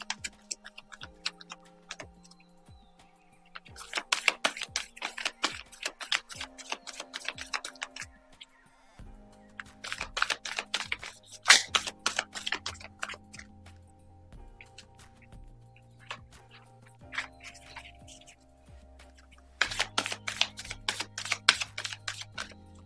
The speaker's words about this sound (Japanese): カードをねシャッフルいたしますので少々お待ちください。